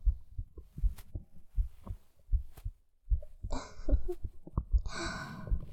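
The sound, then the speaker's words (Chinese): A person's heartbeat: many low, muffled thumps in a steady paired rhythm, with soft breathy sounds in the second half. “能听到姐姐的心跳声吗？”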